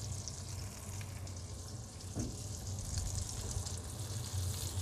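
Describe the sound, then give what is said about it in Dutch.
Steady sizzling of eight fennel wedges frying cut side down in a pan, a continuous, even hiss over a low hum with no talk. “Nou, nu heb ik dus die acht partjes venkel, die heb ik nou eh, in de pan liggen.”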